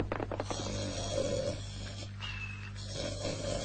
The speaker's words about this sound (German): Keiner kann so laut schnarchen.